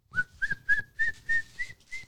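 A person whistles an imitation of the song of a small brown bird with a roughly six-inch wingspan. There are seven clear, evenly spaced notes, each a short sliding chirp, and the pitch steps gradually higher from note to note.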